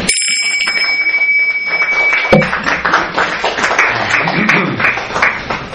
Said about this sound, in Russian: Аплодисменты, переходящие в овацию.